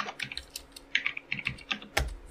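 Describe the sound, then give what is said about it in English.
Typing on a computer keyboard: an irregular run of sharp key clicks coming in short bursts, heard alone with no talking. “All right, how do I type this in?”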